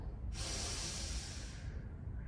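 A deep inhale during a therapeutic Lu Jong yoga exercise, taken with legs apart and hands on the lower back: a single steady, breathy hiss that begins abruptly, holds for over a second, then fades, with no talk.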